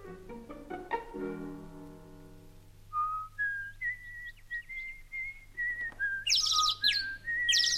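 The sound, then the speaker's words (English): High chirps and whistles from a small bird: repeated short, bright notes with quick upward flicks and brief trills, growing louder and busier toward the end. A lower, harmonic tone comes before them. “Hello, little birdie.”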